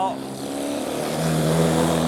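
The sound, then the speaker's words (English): A race car's engine misfiring after dropping a cylinder and running on three: a rough, steady drone with a low buzzing tone that grows slightly louder toward the end. “Jerry's dropped the cylinder by the sound of things, and sounds like he's on to 3 cylinders.”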